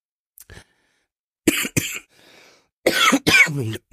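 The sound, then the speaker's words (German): A person with a heavy cough coughs hard in a few harsh bursts: two faint ones, then two sharp loud coughs, and after a short pause a longer, rougher coughing fit. “Entschuldigung, ich habe noch ganz dollen Husten.”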